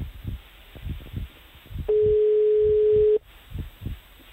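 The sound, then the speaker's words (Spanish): A telephone line tone follows the dialing of a number: one steady, mid-pitched tone lasting a little over a second, rising clearly above fainter background sound before and after it. “Estoy aquí, que estoy marcando. Uh-huh. Da tono.”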